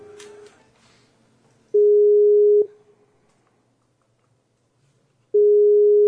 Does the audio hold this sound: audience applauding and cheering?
no